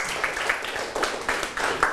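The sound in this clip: A few faint, scattered hand claps from students in a classroom, sparse and irregular rather than a full round of applause.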